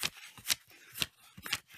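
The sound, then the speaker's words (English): Paper money is riffled through in four crisp, papery flicks spaced about half a second apart, quiet and alone. “You hear that? That's the sound of money.”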